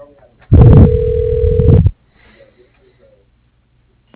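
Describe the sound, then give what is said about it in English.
A telephone line tone during a call transfer: one loud, steady tone of about one and a half seconds that stops abruptly, followed by faint line noise and near silence. “Your call is being transferred.”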